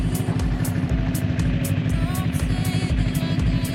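Vehicle engine rumbling steadily while driving in strong wind at minus 18 degrees, a loud continuous low drone with repeated gusty hissing bursts riding on top.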